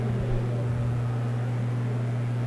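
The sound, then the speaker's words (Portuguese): The small stepper motor inside a Microsoft Kinect, smaller than a dollar coin, drives the sensor's vertical tilt. It gives a constant low-pitched hum with a steady noisy wash and no breaks. “Aí a gente vê o motor de passo, é menor que uma moeda aí de dólar, que ele vai fazer essa movimentação vertical.”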